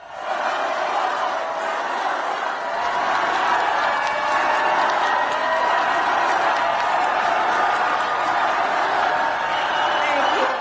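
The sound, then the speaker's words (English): A large, loud audience cheers and chants for Vice President Kamala Harris as she approaches the podium. The crowd roar is dense and sustained, holding at a steady level throughout. “the vice president spoke to a loud, large and appreciative audience who chanted her name as she approached the podium.”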